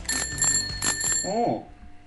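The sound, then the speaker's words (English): A bicycle bell rings a few quick, bright metallic dings in a row, each tone ringing on briefly, ending with a short voiced sound. “All bikes on the road must have a working bell.”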